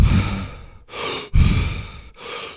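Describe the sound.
Rapid deep breathing in a hyperventilation breathing technique, with four loud, forceful rushes of air following one another in quick succession with barely a pause between them, and no talking.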